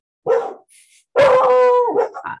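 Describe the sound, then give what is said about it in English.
Excited dogs bark and howl on a full moon night: a short bark, then a long sustained howl that trails into shorter cries. “The dogs are very excited on this full moon.”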